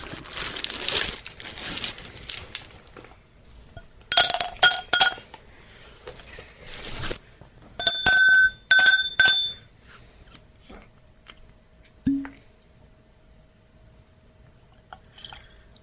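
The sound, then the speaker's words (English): Ice cubes clinking into a glass of Balvenie Scotch whisky: bright, ringing glassy clinks in two busy clusters, with crackling and dripping between them and a single duller knock near the end. “Put a couple rocks in. We'll finish off the Belvenny.”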